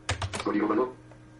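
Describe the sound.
Ctrl C pressed on a computer keyboard: a few sharp, quick key clicks at the start, followed by a brief voice speaking.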